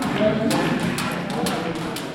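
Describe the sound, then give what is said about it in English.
A jump rope slaps a gym floor at the Circleville Juvenile Correctional Facility in central Ohio while young men warm up, making sharp, regular thwacks about every half second over a steady background murmur. “A jump rope slams against the gym floor at the Circleville Juvenile Correctional Facility in central Ohio as about a dozen young men warm up and stretch their arms.”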